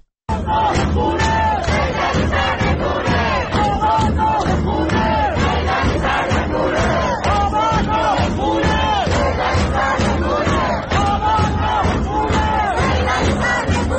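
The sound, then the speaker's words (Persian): A large crowd of protesters in Sadeghieh, Tehran, chants slogans in unison. The dense, loud, rhythmic chanting repeats steadily and continuously without a break. “از جمله حتی در این صدای این ویدیو از صادقیه تهران میتونیم ببینیم که از همین صدا هم تعداد معترضان بسیار زیاده.”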